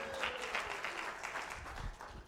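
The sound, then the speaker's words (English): Audience applause during a prize giveaway at a game, a dense, steady wash of many hands clapping at an even level for a couple of seconds. “Yeah, give them a round of applause.”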